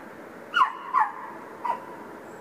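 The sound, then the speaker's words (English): A dog gives three short, faint whimpering yelps, each briefly rising then dropping in pitch, over a steady low hiss. “And that's my dog, Allie.”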